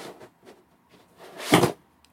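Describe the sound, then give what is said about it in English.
A heavy box is lifted down from the top of a set of shelves: a few soft bumps and rustles, then one louder, brief scraping thud before quiet returns. “There's a box on top of these shelves. I'll get it down. It's heavier than I expected.”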